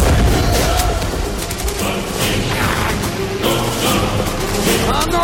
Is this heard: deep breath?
no